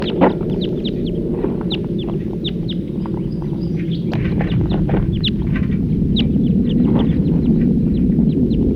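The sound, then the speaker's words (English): Wild bird calling: many short, high chirps in irregular bursts over a steady low rumble, with no voices. “Stop. Wild bird. Stop.”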